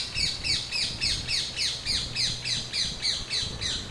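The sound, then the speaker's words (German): Rose-ringed parakeets call in the palace park at Biebrich, Wiesbaden, giving many shrill, squawking notes in a fast, even rhythm over a low background rumble. “Wer aufmerksam lauscht, der kann sie deutlich hören, die Halsbandsittiche im Biebricher Schlosspark in Wiesbaden.”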